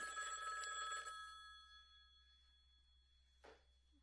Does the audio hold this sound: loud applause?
no